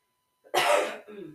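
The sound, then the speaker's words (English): A single loud, harsh cough bursts out after a moment of silence and is followed by a softer, voiced throaty tail. “I don't know why I'm getting the coughs right now.”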